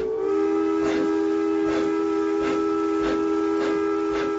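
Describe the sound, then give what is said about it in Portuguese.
A lit steam train passing a signal cabin: a sustained steady whistle tone runs throughout, with regular rhythmic chuffs under it, loud and with no voices. “E um trem iluminado, roncando como um trovão, fez tremer a cabine do manobreiro.”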